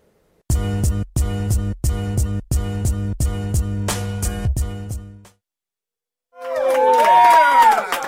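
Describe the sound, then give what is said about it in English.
Staff members posing as a studio audience cheer and whoop on cue, a short lively burst of voices with rising whistles that follows a stretch of punchy, rhythmic music hits. “We apparently have a brand new studio audience, so it was fake. They're all workers here, and I told them they had to cheer.”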